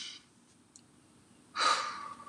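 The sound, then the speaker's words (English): Deep breathing during a guided relaxation exercise: one long, loud rush of breath rises suddenly after near silence and slowly fades, with no talking. “Take a couple deep breaths with me now.”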